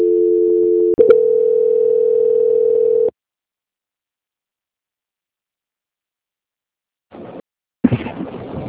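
A steady telephone tone during a call transfer holds for about three seconds and shifts pitch after a click near the first second. Silence follows, then a few short noisy bursts.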